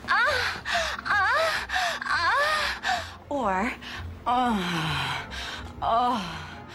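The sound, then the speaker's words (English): A woman moans in a series of short, breathy vocal bursts, each with swooping rises and falls in pitch, like several different takes tried one after another. “the standards lady is saying my moaning in Muffin Top is too graphic. Which of these is less offensive?”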